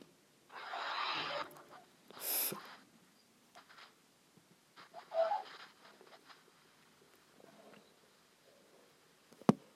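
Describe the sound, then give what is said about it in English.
Faint, airy breaths drawn in and let out during a prayer, a few soft rushing bursts separated by quiet pauses, with one sharp click at the very end. “Just breathe in and out 5 times.”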